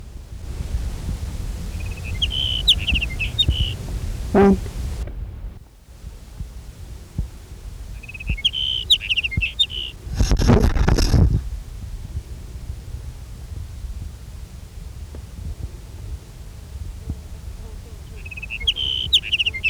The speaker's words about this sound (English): Here's sage sparrow number one.